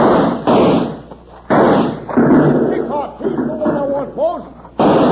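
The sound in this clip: Gunfire during a shootout in a western radio drama: several loud, sharp gunshot blasts, spaced apart, with whining, ricochet-like tones between them.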